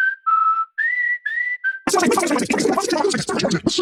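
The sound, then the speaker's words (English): A radio advert played back at very high speed: a few squeaky, whistle-like chirps give way to a dense, rapid, garbled chatter of sped-up voices and sound, loud and continuous. “Hey, that sound you just heard was this ad at Superloop speed. Because when you internet with Superloop, everything is fast, even our ads.”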